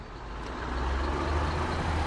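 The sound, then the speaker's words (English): Trucks rumbling through a prairie town on their way to and from a cattle operation, a dense, steady low roar that swells slightly louder as it continues. “Trucks rumble through town on their way to and from Adams Land and Cattle”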